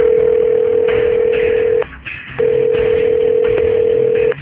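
A telephone gives a steady single-pitched dial tone while a call is being placed. The tone cuts out briefly with a click, then resumes and holds until the end.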